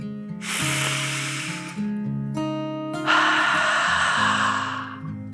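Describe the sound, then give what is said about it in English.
A deep breath in, then a longer breath out, as part of a calming breathing exercise. Both breaths are loud and airy over a soft, sustained musical backing. “they took a second deep dragon breath in and out.”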